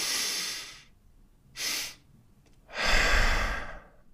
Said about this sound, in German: wenn du schon fast voll eingeatmet hast, kurz innehalten und dann nochmal. Ich mach nochmal.